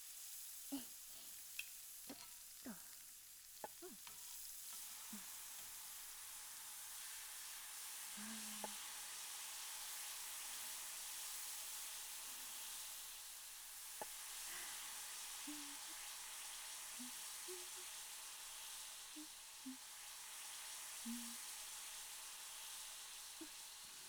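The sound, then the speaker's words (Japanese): Asparagus sizzling on a grill, a steady hissing sizzle throughout with scattered small pops and crackles, loud and continuous with no talk. “じゃあ次はアスパラガスさん。さてさて、あなたは一体どんな音を奏でるのでしょう。”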